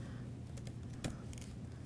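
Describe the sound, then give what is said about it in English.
Faint clicks from a computer keyboard as someone types code, a few light, scattered keystrokes over a quiet background hiss, with no talk. “Let's just start typing some things here, right?”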